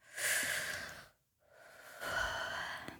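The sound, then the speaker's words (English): A deep breath in and out: a long, airy inhale, a short silent pause, then an equally long, breathy exhale, fairly faint and with no talk. “Yeah, deep breath. Inhale, exhale.”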